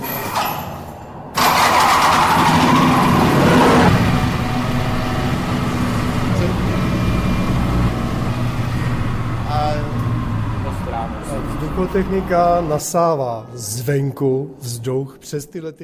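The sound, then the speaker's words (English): Ventilation machinery in a bunker shelter kicks in with a sudden loud roar, then drones on as a heavy, steady hum; a voice speaks over it near the end as the noise becomes uneven. “Everything is of massive design, even the ancient telephones hanging from the walls, and of course the ventilation system, the noise of which would probably drive one mad within less than 72 hours.”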